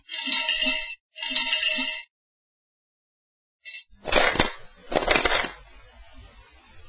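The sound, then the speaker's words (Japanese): Ritual hand claps at a small Shinto shrine: two sharp, ringing claps come after two bell-like tonal bursts. “神妙な面持ちにて、柏手を打つ。”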